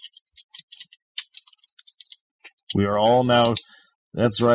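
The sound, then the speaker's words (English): Computer keyboard typing during an online search: a quick, uneven run of light plastic clicks and taps, followed by a person speaking. “This is what it sounds like. Phenomenon. That's the sound of googling.”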